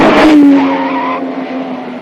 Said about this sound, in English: The man solemnly continues walking when a small pink convertible, with another gorilla behind the wheel, charges in his direction from another street.